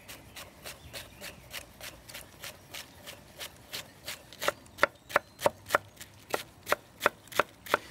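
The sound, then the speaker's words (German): Knife chopping pointed cabbage into thin strips on a board, with many evenly spaced cuts in a steady rhythm. The cuts grow louder and crisper about halfway through and are heard alone, without talk. “Ich schneide den Spitzkohl in dünne Streifen,”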